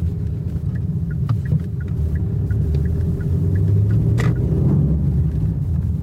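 A car hums along on a short drive to a petrol station, with a steady low engine and road rumble throughout and no talking.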